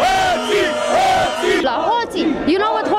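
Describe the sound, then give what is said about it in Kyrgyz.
Romanian protesters at a demonstration chant a one-word slogan in unison. The loud, rhythmic crowd shouting repeats continuously throughout. “Демонстранттар эмне деп жатышат? Билесизби? Алар уурулар. Уурулар деп жатышат.”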